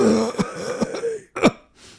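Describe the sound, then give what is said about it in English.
A man imitates throat clearing with a few rough, throaty rasps separated by short gaps, ending in a brief faint breath. “he clears his throat. Die. He clears his throat every time.”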